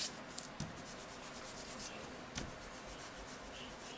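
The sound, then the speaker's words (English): An eraser rubs pencil guidelines and a vanishing point off a paper drawing, making faint, steady, scratchy friction with a few small ticks. No one talks. “we'll go ahead and erase our vanishing point”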